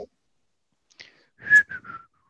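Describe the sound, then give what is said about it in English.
Someone tries to whistle and mostly fails. Faint airy puffs give way to a few short, breathy, high-pitched whistle tones that break off quickly, with no talking. “I'm trying to whistle and I can't.”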